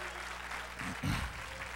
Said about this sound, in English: Or clap your hands unto God and bless his name.